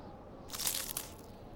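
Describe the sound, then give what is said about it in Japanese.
Crumbly bread is torn in half to share, making a brief crisp crunching rip of about half a second against otherwise quiet surroundings. “あ、パンだ。 半分こしようね。”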